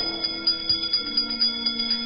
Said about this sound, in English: Wizards and witches, wherever you dwell, give us a hint by ringing a bell.